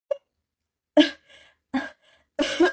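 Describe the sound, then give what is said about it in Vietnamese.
Harsh coughing from people caught in thick kitchen smoke: a short faint cough, then a few louder, rough coughing bursts spaced apart, the last one longer and ragged. “Lý Trị Phong ho khan một hồi, hai người vội chạy ra ngoài. Mặt mày nhem nhuốc, bộ dạng tả tơi. Du Diễu vừa ho vừa nói.”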